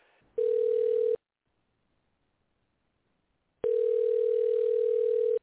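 Telephone tones while calling a newsroom number: two long, steady electronic tones separated by about two seconds of silence, with no voices.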